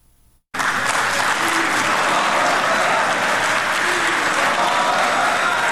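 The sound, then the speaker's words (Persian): Applause fills a five-star hotel hall in Doha after a peace treaty signing, bursting in after a brief quiet moment and holding as a steady, loud, dense clapping until the end. “این صدای چکسک در هتل 5 ستاره اشراتون دوحه بعد از آن در فضای تالار بلند شد که دیپلمات آمریکایی و نماینده طالبان پیمان را تحت عنوان آوردن صلح در افغانستان امضا کردند.”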